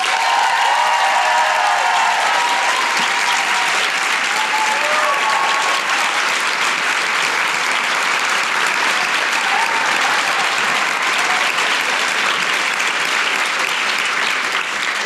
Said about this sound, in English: Please put your hands together and make fabulous Brisbane noises for Michelle Law!